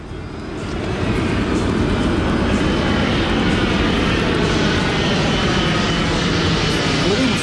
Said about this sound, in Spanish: Nos vamos en avión, de Italia a Bélgica.